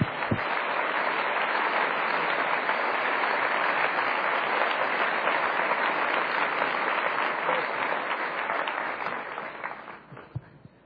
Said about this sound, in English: I think this is a great idea, and I wouldn't be surprised if they didn't beat their $3 million goal. Let's give them a big hand.